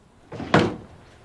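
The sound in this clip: A door being pushed shut: a single soft thump after a brief brushing lead-in, fairly faint and heard alone.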